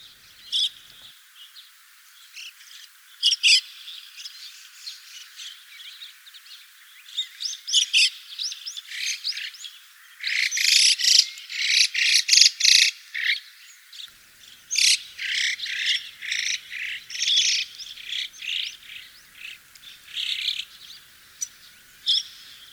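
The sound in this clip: Starling chicks call from a nearby nest during breeding season, with many rapid, high chirps and squawks in irregular bursts throughout. The calls grow busiest and loudest in the middle stretch, and no one talks.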